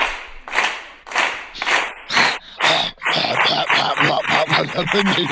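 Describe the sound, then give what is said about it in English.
Hands clapping very fast: a run of sharp, loud claps in quick bursts, then denser clapping with a voice talking over the later part. “I'm gonna get a heart attack clapping so fast. I'm afraid to do it, you know, too fast.”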